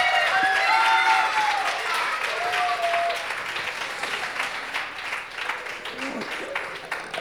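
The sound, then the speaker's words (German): Applause from an audience after a player's points are announced in a scoring game: dense, steady clapping that lasts throughout and eases slightly toward the end, with voices mixed in. “das macht 39 Punkte und Applaus für Ralf.”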